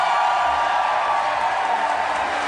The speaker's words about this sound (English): Standing ovation, Chicago. Welcome, Spencer Crittenden. They're on their feet.